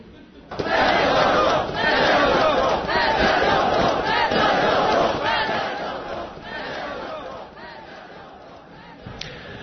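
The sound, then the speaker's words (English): Street protesters in Ukraine chanting against the president's removal of his defence minister: a loud, dense crowd of many voices shouting in a steady rhythmic chant, easing slightly toward the end. “Sounds there of protesters campaigning against the president there in protest at his decision to fire his defence minister.”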